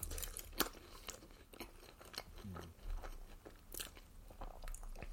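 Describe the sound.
Biting into and chewing a meat patty: soft, moist crunches and mouth sounds repeating irregularly at a low level throughout.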